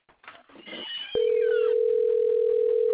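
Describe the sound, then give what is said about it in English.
A telephone ringing, heard as a steady, unbroken electronic tone that starts abruptly and holds at an even, fairly loud level after a brief stretch of faint, muffled sound. “Please let Roger answer that phone.”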